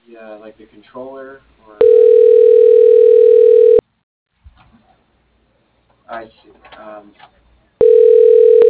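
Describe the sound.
Telephone tone from a call placed to an office extension: a steady single-pitched tone sounds for about two seconds, a voice speaks, then the same tone starts again, with a voice also heard before the first tone.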